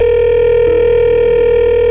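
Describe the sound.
A telephone sounds a loud, steady, unbroken electronic tone, alone, with a low buzzing hum beneath it and one brief click partway through.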